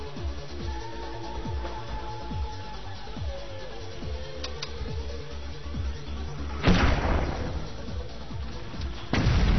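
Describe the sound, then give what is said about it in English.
Grenade and mortar explosions in a video game: a steady rumble of many low thuds and pops, with two louder, sharper blasts breaking through near the end. “Incoming grenades. But Rift gets plasmaed by Cola. Got some mortars coming in,”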